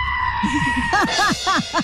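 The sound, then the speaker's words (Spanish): A goat bleats in a few short, quavering cries in quick succession, loud and wavering in pitch. “Es un chivo.”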